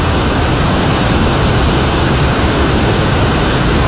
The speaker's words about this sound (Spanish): 8 horas 30 minutos, podemos observar el río Tomebamba, con un caudal bastante elevado.